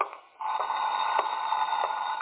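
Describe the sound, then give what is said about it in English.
Telephone ringing at a home during a poker party: a steady, continuous electronic ring, fairly faint and thin, with no voices. “Phone. I got ears.”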